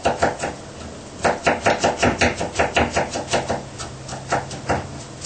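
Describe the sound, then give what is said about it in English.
Strawberries being chopped very finely produce a fast, steady run of crisp chopping taps. A short burst comes first, then a brief pause, then a long even series of quick strokes with no talk. “and the strawberry, chop fine. Yeah. Very, very fine.”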